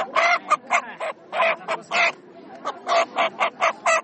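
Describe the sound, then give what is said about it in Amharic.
Chickens at a poultry market give many short, harsh squawking calls in quick, irregular succession, each cry loud and clipped, with brief gaps between bursts. “ይሄ ዶሮ ስንት ነው? የ350 ዶሮዎች እያየሁ ነው።”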